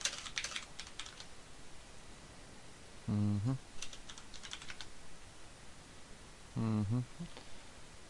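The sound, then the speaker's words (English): Fingers typing on a computer keyboard, heard as quick clusters of light plastic key clicks in a few separate bursts, with quieter gaps between them. “YouTube and type something in with my fingers”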